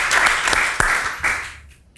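Applause as an audience claps to thank a woman who sent in a postcard, a burst of irregular claps that starts full and steadily thins and fades toward the end.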